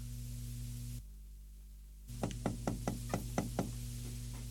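Rapid knocking on a door comes in a quick, even series of sharp raps over a low steady hum, after a brief quieter pause.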